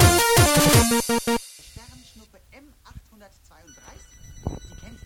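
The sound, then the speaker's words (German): A phone's incoming-call ringtone plays loudly for about a second and a half as a bright, repeating melodic pattern, then stops abruptly and a person starts talking. “Tja, hat meine Freundin angerufen.”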